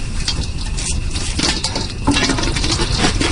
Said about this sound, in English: Wow, popcorn on a real fire.